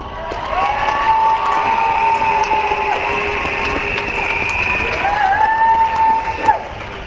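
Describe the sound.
Crowd applause and cheering at a rally as a speaker is welcomed, a loud, continuous wash of clapping and raised voices that stays steady throughout.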